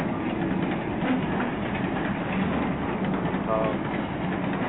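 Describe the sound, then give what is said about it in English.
Steady, loud rumble of a noisy train running through a tunnel. A dense roar holds without pause from start to finish, with faint clattering inside it. “That's one noisy, like, you know, sound-like so sort of train going straight through a tunnel.”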